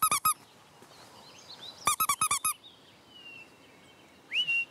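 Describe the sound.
A mouse-squeak lure sounds, used to call back a little owl that escaped from a flight show. Shrill, very high squeaks come in two rapid clusters, with faint bird whistles in between and at the end.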